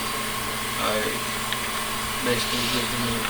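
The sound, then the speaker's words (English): A sandblasting machine running in a manufacturing shop: a steady, hissing mechanical drone over a low hum, with faint voices over it. “this is a sandblast. You know, sandblasting does on metal, makes it that. That's a sandblast machine.”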